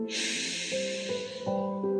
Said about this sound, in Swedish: Sista andetaget. Andas in.